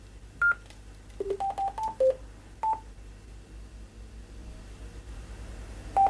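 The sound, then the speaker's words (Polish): Short electronic tones from an amateur radio connecting to a Wires-X room, dialed from the microphone's DTMF keypad: a scattered series of brief, steady beeps at varying pitches, clustered mid-clip, with a final pair at the end. “ten dźwięk trójtonowy sygnalizujący połączenie do konkretnego roomu był o dużo wyższej częstotliwości.”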